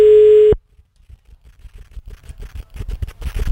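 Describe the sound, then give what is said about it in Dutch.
A telephone call rings out with a steady ringback tone that cuts off after about half a second. A long quiet gap with faint soft rustling follows, then the tone starts again at the very end. “Matthias, dat is zo iemand dat ik gewoon wel een keer kan proberen bellen en zien wat er gebeurt”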